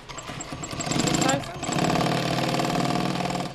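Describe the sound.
An industrial sewing machine stitches a coat hood to the outer shell, its motor whirring in two steady runs separated by a short pause, with rapid, regular high ticking from the needle over the hum.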